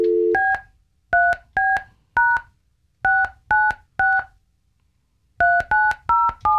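Telephone keypad tones dial a number: a short low hum, then eleven crisp dual-pitch beeps in three quick groups of four, three and four, separated by brief silences.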